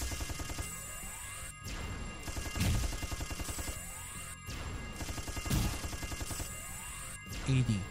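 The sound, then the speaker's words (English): A video game's satellite weapon attack unleashes loud, dense barrages of crashing blasts and rapid gunfire-like bursts, broken by brief near-silent gaps in a repeating pattern. “Well, you'll enjoy the new weapon I have, the satellite. Have fun!”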